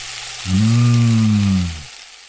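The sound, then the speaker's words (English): Sirloin steak sizzles on a grill with a constant soft hiss, while a loud, low droning tone swells up in the middle for over a second and then cuts off. “Bob's Butcher Shop, slap a slab of sirloin on your grill this weekend.”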